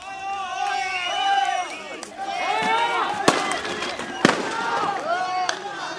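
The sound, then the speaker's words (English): Police fire tear gas at anti-government protesters in Nairobi, Kenya: a few sharp, loud bangs cut through a dense crowd of shouting voices. “The sound of police firing tear gas to disperse protesters.”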